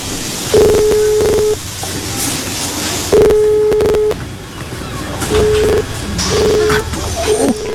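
A phone call being placed to family after an earthquake: a few steady electronic beeps with pauses between them, heard over background hiss.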